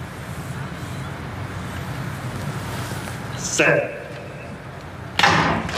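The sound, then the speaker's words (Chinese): A starting gun fires at a sprint race in Monaco, heard as two sharp, bright bangs, the second a little longer, standing out over a steady low background hum. “好的，比赛发枪，启动反应不错”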